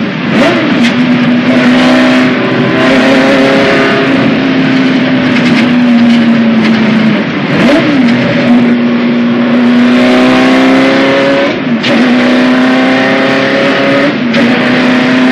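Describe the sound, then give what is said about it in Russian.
Race car number 184 roars around the inside of a track, running alongside another car. The engine snarl is loud and continuous, and its pitch dips and climbs again at several points. No voices are heard. “На нем номер 184. Он мчится по внутренней стороне трассы, то отставая от машины Жан-Луи, то чуть обгоняя ее.”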